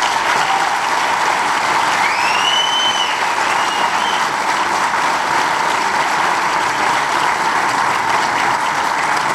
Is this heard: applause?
yes

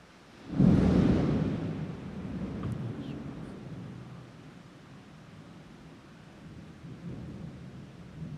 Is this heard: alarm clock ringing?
no

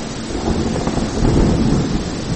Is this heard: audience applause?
no

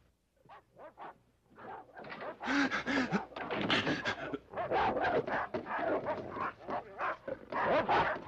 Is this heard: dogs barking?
yes

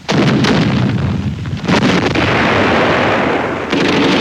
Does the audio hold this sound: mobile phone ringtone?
no

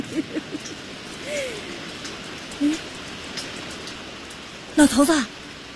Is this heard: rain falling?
yes

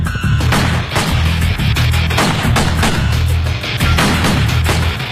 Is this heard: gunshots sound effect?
yes

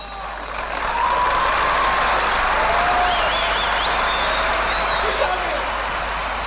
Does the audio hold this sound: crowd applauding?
yes

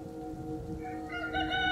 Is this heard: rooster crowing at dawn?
yes

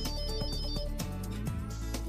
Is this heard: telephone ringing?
yes

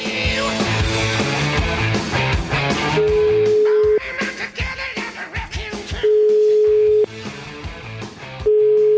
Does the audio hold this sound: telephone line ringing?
yes

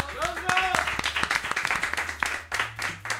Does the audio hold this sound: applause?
yes

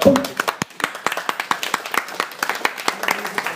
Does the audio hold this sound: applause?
yes

